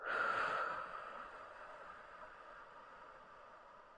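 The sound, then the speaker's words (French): A breath blown out onto a hand during a breathing exercise: a soft, airy rush of air that is loudest at the start, then tapers slowly into a faint hiss. “On recommence. On inspire et on souffle sur sa main.”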